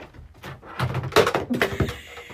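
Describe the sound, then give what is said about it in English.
A phone is knocked over on the floor of a cello teacher's classroom, making a few clattering knocks and thuds of moderate loudness across a couple of seconds. “I just knocked over the phone. Anyways. That was so obnoxious.”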